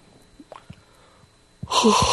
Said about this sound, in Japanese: いや、そのタイミングじゃないですね。あくびのタイミングじゃなかったです。